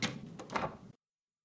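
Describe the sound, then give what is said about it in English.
A door being quietly closed: a soft, brief shuffle with a muted knock lasting under a second, then silence. “stepped outside, quietly closing the door behind herself.”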